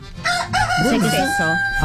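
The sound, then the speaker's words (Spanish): A rooster crows once: a loud, harmonic cock-a-doodle-doo lasting about a second and a half, wavering in pitch before it trails off. “¿Qué es eso? Puro gallo.”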